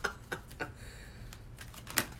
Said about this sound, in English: And I'm throwing cards all across the place here.